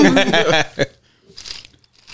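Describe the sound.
A crisp bite into a snack from a jar, then quieter crunching and chewing. A person speaks just before the bite.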